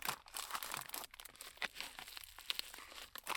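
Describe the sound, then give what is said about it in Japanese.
Plastic packaging of brand-new products crinkles and tears as it is opened. Many irregular rustles and crackles run throughout, with no talking. “全部新品なんです。なので一個ずつ開封していきたいと思います。”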